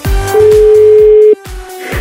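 A ringback tone on an outgoing call dialed to an award nominee. One steady mid-pitched tone of about a second sounds over rhythmic music with thumping beats, and the music carries on after the tone stops.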